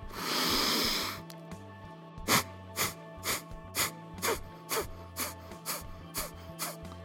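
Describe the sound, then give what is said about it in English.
Breath of fire: forceful exhales pushed out through the nose from the low abdomen, starting with one long, loud breath and then many rapid, evenly spaced sharp puffs in a steady rhythm over a faint tonal hum. “Each of those forceful exhales coming from my low abdomen as I'm pushing or expelling air out of my nose. That is the breath of fire.”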